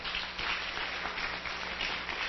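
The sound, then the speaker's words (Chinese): Applause from an audience at a children's award ceremony: dense, steady clapping that continues without a break for the whole clip. “那我们先跟他鼓掌”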